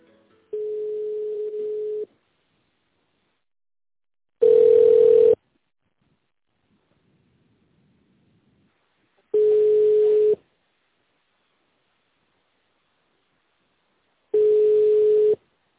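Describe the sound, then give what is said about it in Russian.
Telephone ringback tone heard while calling a company: four steady mid-pitched tone bursts, each about a second long, separated by silences of several seconds, with no voices. “Здравствуйте. Вы позвонили в компанию АСТ.”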